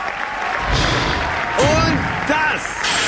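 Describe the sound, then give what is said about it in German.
An automatic locking mechanism on a capsule closes shut in a radio play, a hissing, whooshing mechanical effect with gliding whistle-like tones and a couple of dull knocks. “Und das war der automatische Schließmechanismus, Herr Wirth. Jetzt gibt es kein Entrinnen mehr.”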